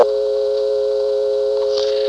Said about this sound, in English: So I dial a few extra digits and you hear the second dial tone sort of blipping on for a second, as if somehow my dialing ones into the trunk is making it flash answer supervision.